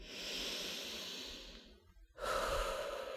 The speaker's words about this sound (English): So take a deep breath in for me, please, and a breath out.